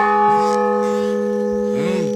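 Church bell rung by pulling its rope: one loud, sustained ringing tone with rich, steady overtones that hum on without fading through the whole two seconds.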